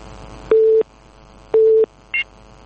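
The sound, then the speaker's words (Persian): A busy tone sounds after a phone call is cut off: two steady, mid-pitched beeps of equal length about a second apart, followed by a brief, higher blip over faint line hiss. “آقای عبدالله از زابل تماس گرفتن قطع شد.”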